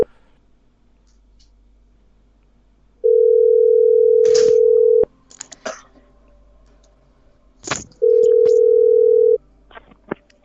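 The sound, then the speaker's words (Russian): Outgoing telephone call tone: two long, steady, loud ringing tones separated by a quiet gap, the first about two seconds and the second a bit shorter, with small throat-clearing and breathing noises between them. “Какой же у него номер? 908, был, который из Сбербанк. Сейчас наберу.”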